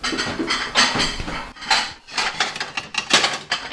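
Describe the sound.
Plates being taken out and handled in a home kitchen while cooking, giving many sharp clinks and clatters of dishes knocking together in an irregular, busy run, fairly loud, with no talking.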